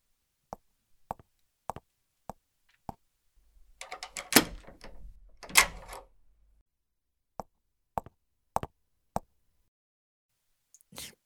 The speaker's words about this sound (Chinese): 那我先去把门锁好。